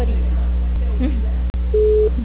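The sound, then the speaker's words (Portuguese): A telephone busy signal on a line where all lines are busy: one short, steady, low-pitched tone near the end, over a constant low electrical hum, with a brief sharp dropout partway through. “Deixe sua mensagem. Por favor, aguarde. Todas as linhas estão ocupadas no momento. Por favor, tente mais tarde.”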